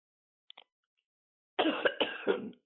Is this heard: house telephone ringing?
no